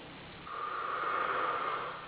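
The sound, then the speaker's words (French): A single slow breath drawn in during a calming tapping exercise, a soft steady airy hiss lasting about a second and a half, faint and alone. “Vous respirez.”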